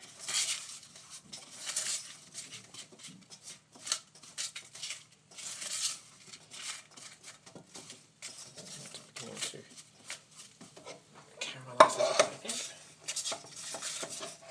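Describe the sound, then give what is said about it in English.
Soft clinks, knocks and scraping of a utensil in a pot as apple and water are stirred together. The irregular sounds run throughout and are faint, with a louder clattering burst near the end. “Add the apple in and keep stirring, and then we'll add the water in. Keep stirring again.”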